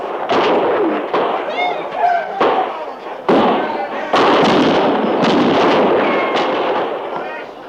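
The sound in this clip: Gunfire in a frontier battle as a camp is fired on: many sharp, loud shots and bangs in an irregular, overlapping volley, with shouting voices mixed in.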